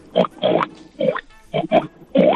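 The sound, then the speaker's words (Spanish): A person imitates a pig with several short, nasal, grunting oinks in an uneven rhythm, each one a rough burst separated by brief gaps. “El cerdo, que es muy fácil, ¿sí? Que es...”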